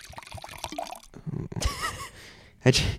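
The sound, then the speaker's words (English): Wine is poured into a glass with a short liquid splash and trickle, while people talk over and around it. “You just poured some wine for anyone who's just listening and has no idea what just happened.”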